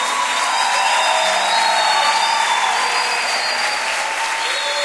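Sustained applause from a crowd at a nighttime religious worship gathering, steady loud clapping with no pause from start to finish.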